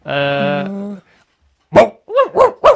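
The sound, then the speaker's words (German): A dog barks four times in quick succession, loud, sharp and fairly high-pitched, with the last three barks bunched close together. “Weg mit dem Köter.”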